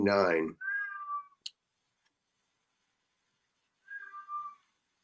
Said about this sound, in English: Somebody has an angry cat. That is a cat. She's pissed off. She's in her room. She says, Let me out.